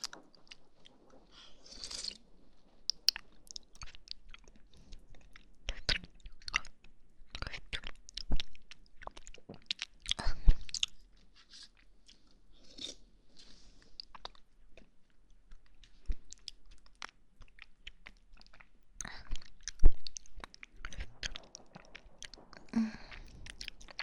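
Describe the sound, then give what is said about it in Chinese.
Wet sipping and mouth sounds from drinking a thick blueberry yogurt: many small smacks, clicks and soft slurps in an irregular pattern, with no talk. “果然好好喝呢，这个蓝莓味的酸奶，味道很浓郁，很棒。”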